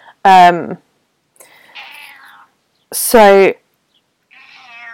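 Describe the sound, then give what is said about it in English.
Two loud, drawn-out meows come from a pet cat. Each is a clear, harmonic cry about half a second long, separated by a few seconds of quieter talking. “my cat is meowing at me rather annoyingly.”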